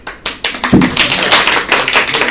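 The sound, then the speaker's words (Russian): Audience applause during a debate where listeners clap to show agreement, opening with a few separate sharp claps that quickly thicken into dense, loud clapping. “Аплодируют те, кому это нравится.”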